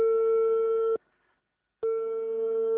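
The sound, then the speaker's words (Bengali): Telephone tone as a call is being connected: a steady, loud electronic tone that sounds for about a second, cuts off for a short gap, then resumes at the same pitch, with no voices. “Kalimullah সাহেবকে এই মুহূর্তে ফোনে connect করছি”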